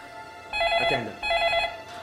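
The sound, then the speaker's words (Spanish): An incoming call sets a telephone ringing in two bursts of bright, steady high-pitched trilling, each lasting under a second, with a short gap between them, loud over a faint hiss. “Luego de varias horas de tensa espera, la familia Dinis recibe otra llamada.”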